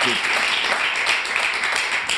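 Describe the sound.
Steady audience applause fills the whole clip as a dense, even crackling wash of many hands, with some voices faintly mixed underneath.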